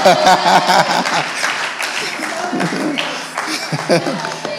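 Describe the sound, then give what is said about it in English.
Audience applause at a church Founders Day service: a dense, crackling wash of clapping that runs steadily throughout, with a voice speaking over it. “So please put your hands together and let's welcome.”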